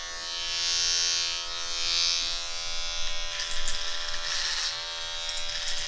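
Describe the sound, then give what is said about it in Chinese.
An electric shaver shaves a beard with a steady, droning buzz that holds at an even pitch. In the second half, brighter rasping bursts appear as the head cuts through the stubble. “感受一下刮胡子的感觉吧。”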